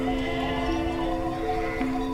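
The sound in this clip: A horse neighs with a sustained, fairly faint harmonic cry, traveling with a shepherd, a donkey and ewes up onto a plateau above a river. The call holds a steady pitch with no talk.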